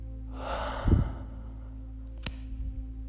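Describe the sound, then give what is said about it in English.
A deep breath during a guided relaxation exercise: a soft, airy inhale swells for under a second, followed by quieter, faint breathy sounds. No one talks. “We will begin by closing our eyes and taking a deep breath in and out.”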